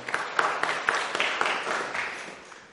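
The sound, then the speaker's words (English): Audience applause, a soft, steady wash of many hands clapping with a few sharper claps standing out, no talk over it. “I think she deserves a round of applause for doing that.”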